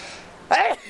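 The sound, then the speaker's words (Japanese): A single short sneeze bursts out in a city park on a rainy day, a brief loud burst rising sharply above a steady background hiss and quickly falling away. “くしゃみが出ました。”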